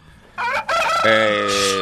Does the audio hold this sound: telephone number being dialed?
no